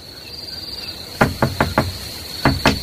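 Knocking on a door late at night comes in two bursts, four sharp knocks then three more, over a steady, high insect trill that continues throughout.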